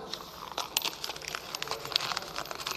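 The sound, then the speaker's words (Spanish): A sheet of paper crumpled by hand, a dense, faint stream of crisp crackles and crinkles with a few sharper snaps. “Que todo esto que acabo de decir se convierta en esto, en un papel arrugado, en ruido, en nada.”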